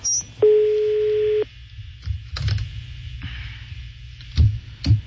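An unanswered phone call going to voicemail: one steady electronic ring tone lasting about a second, then scattered line clicks and faint noise.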